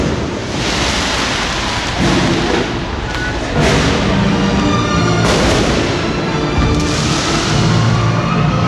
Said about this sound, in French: Il y a un feu d'artifice, du feu de Dieu, sono infernal.